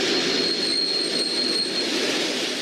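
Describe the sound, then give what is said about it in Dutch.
A train pulls into a railway station in Moscow, giving a steady, even rumble of rolling stock with a thin, high wheel squeal running through the middle. “rijden ze om 15:45 de spoorhallen binnen van de hoofdstad Moskou.”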